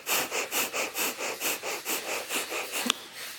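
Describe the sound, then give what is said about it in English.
Breath of fire, fast rhythmic breathing in and out through the nose with the mouth closed, driven by the diaphragm: a rapid, even run of short, airy sniffing pulses. “Breath of fire is in and out through the nose. Your mouth is closed. It's a fast rhythm breath using your diaphragm.”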